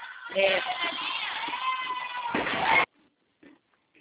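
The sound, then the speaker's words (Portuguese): Cheering and excited shouting from women office workers celebrating a sale, a loud burst of overlapping voices lasting about three seconds that swells at the end and then cuts off abruptly, leaving near silence. “Desculpa o barulho, é que as meninas estão comemorando uma venda. A gente sempre comemora a venda aqui quando a gente faz.”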